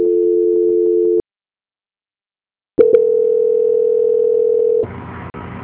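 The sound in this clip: Telephone line tones during a call transfer: a steady tone for about a second, a stretch of silence, then a couple of quick clicks and a longer steady tone that drops into a quieter, hissy buzzing line.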